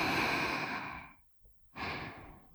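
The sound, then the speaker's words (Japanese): A deep breath in and out, airy and unvoiced: a long breath of about a second, a short silent pause, then a second breath starting again, with no talk. “深呼吸して、吸って、”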